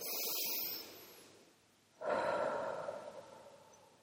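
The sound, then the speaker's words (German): A person breathes in through the nose and out through the mouth: a soft hissing intake, then a louder, breathy exhale that slowly fades, quiet overall. “Stell dich hin und atme durch die Nase ein und durch den Mund aus.”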